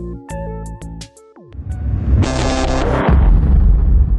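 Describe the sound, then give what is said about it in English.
An atomic blast erupts as a deep, sustained roaring rumble that builds and stays loud, preceded by a short run of tonal notes and a falling sweep. “He tried. The atomic blast could be seen for miles.”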